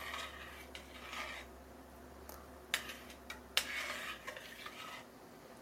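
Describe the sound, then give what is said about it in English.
Slow stirring of a grainy ingredient into a pot in a home cooking session: faint, soft scraping with a few sharper clinks of the utensil against the pot, and no talk. “And now I'm going to just slowly stir it in.”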